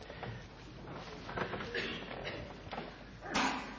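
Pages of a Bible are turned during a church service, opening to the Old Testament book of Jeremiah: several soft, papery rustles and shuffles, with a brighter, louder rustle near the end.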